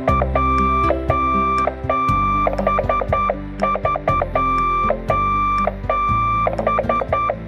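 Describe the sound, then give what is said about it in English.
Telegraph Morse code beeping: many steady-pitched electronic tones of short and long lengths tapped out in an irregular, fast rhythm, with brief clicky onsets and a continuous lower hum beneath. “It probably sounds like a lot of random beeping and clicking. But to a telegraph operator, those dits and dahs sound like letters and numbers strung together into messages.”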